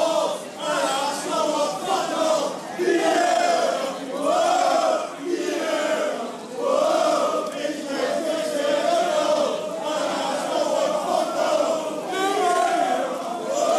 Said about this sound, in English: The noise behind me is 3,000 Arsenal fans singing We Ate Tottenham and singing songs about Robin Van Persie.